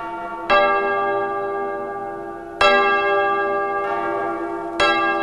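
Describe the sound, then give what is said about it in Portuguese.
A large bell is struck three times at slow, even intervals. Each strike clangs bright and loud, then hums on with a long, shimmering ring into the next. “Acha aquele sino ali, porque hoje é o dia de tocar aquele sino.”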